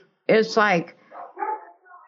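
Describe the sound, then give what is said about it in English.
Dogs barking at home: two loud, sharp barks come close together, followed by quieter yips and whimpers that fade in and out. “Live radio from home. My dogs are barking.”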